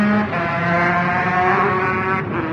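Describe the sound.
A Honda 125 racing motorcycle revs as it starts a four-lap race, its loud, steady, buzzing engine note running throughout with small shifts in pitch and no voices.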